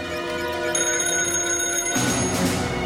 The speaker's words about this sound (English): At a gridlocked junction above an underpass, Cross answers another ringing payphone.